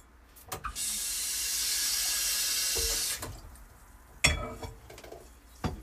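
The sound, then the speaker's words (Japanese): Tap water runs steadily for a couple of seconds while wash-free rice is lightly rinsed, then stops, followed by a few clinks and knocks; no talk. “米、軽く洗う。無洗米のくせに軽く洗うか。”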